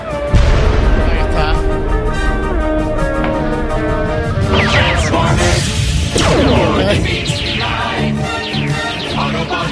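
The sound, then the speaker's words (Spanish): Audio from the Transformers animated series: a loud, dense mix of crashes, booms and whooshes with voices and music running throughout. “Bueno, esta sí que tiene que sonar porque la pusieron en Antena 3. Eran los Transformers.”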